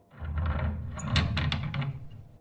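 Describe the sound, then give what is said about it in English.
A door latch being unlocked and a door slowly opened, heard as a few sharp metallic clicks and rattles over a steady low rumble. “I reloaded my shotgun, unlocked the latch, and slowly opened the door.”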